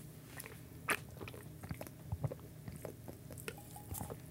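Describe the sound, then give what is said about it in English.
Crunching and chewing as a Sour Patch Kids flavoured snack is eaten in a mukbang taste test: a few soft, quiet bites and crunches scattered over a faint, steady background. “I saw it was like, yo, if you get two of these, we're a dollar off. I'm like, I don't know you, brand I've never heard of in my life. So I got two of them, and here they are. All right, let's give it a good old mukbang taste test.”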